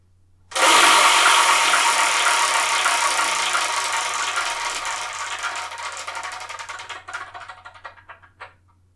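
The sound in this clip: A prize wheel spun to pick the next manga title for review starts with an abrupt, loud rapid rattle of ticks that gradually slows and thins into separate clicks before stopping.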